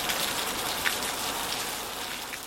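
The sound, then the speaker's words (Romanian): Steady rain ambience: an even, dense hiss of rain falling on surfaces, with faint scattered drop patter and no change in level throughout. “Ambianță ploaie.”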